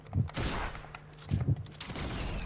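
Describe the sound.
Gunfire from a weapon in the video game Fortnite Zone Wars: a few short, sharp bursts with gaps between them over a low steady hum.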